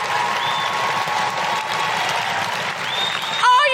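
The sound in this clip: Audience applause at a live stand-up comedy show in Brisbane, steady dense clapping sustained throughout at an even level, swelling briefly near the end.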